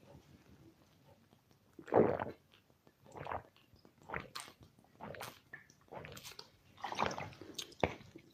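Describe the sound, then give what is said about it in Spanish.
Gulping water straight from a large water bottle: a few faint, wet swallowing and squishing bursts spaced irregularly, each brief and soft against a quiet background. “permítame, en este caso voy a echar mano de mi super botella de agua.”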